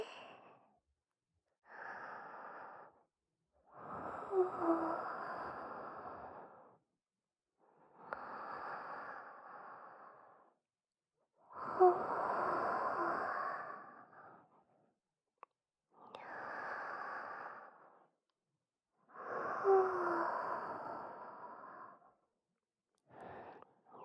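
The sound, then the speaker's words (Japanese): Slow, deep breathing: about eight long, soft, airy inhales and exhales alternate with quiet gaps between them. The breathing is steady and unhurried, with no talking. “ほら、一緒に深呼吸して。”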